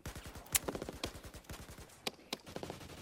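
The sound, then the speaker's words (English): Gunshots being fired in rapid bursts: many sharp, dry cracks in quick irregular succession, a few louder reports standing out above the rest. “Oh, shit. Dodging bullets. That just grazed my shoulder.”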